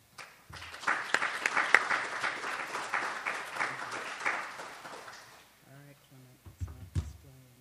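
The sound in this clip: Audience applause welcomes a speaker at a talk on contested history: a steady patter of clapping lasts about five seconds and fades out, and then a man speaks.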